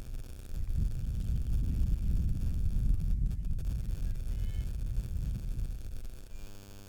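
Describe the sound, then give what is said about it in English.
Wind blowing across an outdoor softball field makes a steady, low, buffeting rumble that barely changes for the whole stretch. No voices are heard. “And the wind blowing through here a little bit.”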